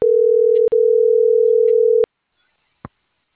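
A steady telephone dial tone plays alone for about two seconds while a call is being placed. A click briefly breaks it, then it cuts off, and one faint click follows.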